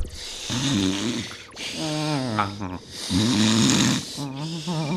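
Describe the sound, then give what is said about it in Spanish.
Deep, rhythmic breathing by two people in unison, voiced and exaggerated into a rasping, snore-like drone, with a series of long, slow breaths at an even pace and short gaps between them. “empieza respirando muy profundamente. Así, los dos a un mismo ritmo.”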